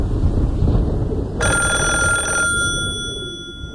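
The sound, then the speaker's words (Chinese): An urgent telephone bell rings in a single bright electric burst of just over a second, its metallic tones briefly lingering and fading, over a steady low rumbling background with no voices. “一阵急促的电话铃声”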